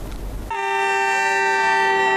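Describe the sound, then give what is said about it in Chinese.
A freight train whistle sounds at a railway station as a train from Russia, loaded with timber boards, departs. A brief low rumble gives way to one bright, steady, harmonic blast that holds loudly to the end. “这里是绥芬河火车站，随着一声清脆的汽笛鸣响，这列从俄罗斯驶来的75044次列车满载着板材向四川成都驶去”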